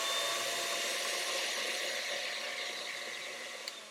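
Electric mixer with whisks running to clean off batter, a steady, loud, continuous whir throughout that fades slightly toward the end, with one brief click near the finish.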